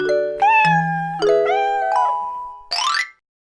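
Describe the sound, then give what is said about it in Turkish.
A cat meow sounds as a game effect in a children's animal-finding game, following a few bright, tonal chime notes; the single meow at the end is loud, harmonic and rises in pitch. “Kedi nerede?”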